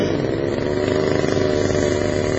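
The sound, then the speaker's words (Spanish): Chainsaw running with a loud, steady engine drone that holds one rough, buzzing pitch throughout, with no pauses or talk. “El loco en la motosierra.”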